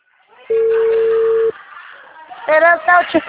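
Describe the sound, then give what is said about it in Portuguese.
A telephone ringback tone sounds on an unanswered call: a single steady, low-pitched ring lasts about a second and then stops. After a short pause, a voice is heard. “Ninguém tá atendendo, só tô ligando.”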